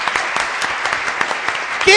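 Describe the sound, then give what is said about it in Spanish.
Audience applause for a production team: a steady, dense patter of many hands clapping for two seconds, with a voice cutting in briefly at the very end. “Un aplauso para la producción.”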